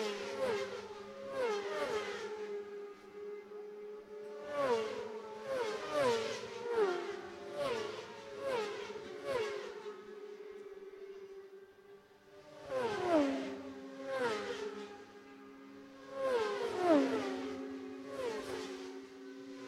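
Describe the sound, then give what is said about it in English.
Racing motorcycles cross the finish line in a long line of bikes over a bridge, their engines whining past one after another with falling pitch as each goes by. The roar swells in waves and no one speaks. “there's a long snake of bikes going across the bridge, and it is 38 that leads. Don Gilbert from 12, Ty Jones. Just going to let you listen to the bikes across the line here.”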